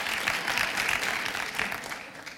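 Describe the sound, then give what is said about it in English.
Audience applause, dense and steady clapping that holds at an even loudness through the whole moment, with no voices over it. “Let's give Andrew some credit. Let's applaud Andrew for a moment. I don't know if Andrew's ever got a clap.”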